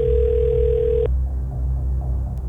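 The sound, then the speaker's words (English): A telephone dial tone after dialing holds one steady pitch for about a second, then cuts off abruptly, leaving a low hum. “I've hit dial.”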